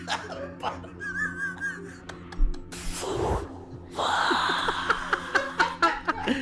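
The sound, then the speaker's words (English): A voice imitates a dying person's last breath leaving the mouth during a spoken game: a sharp noisy gasp, then a long rasping, breathy exhale that holds at moderate loudness. “That's what it sounds like when your last breath leaves your mouth.”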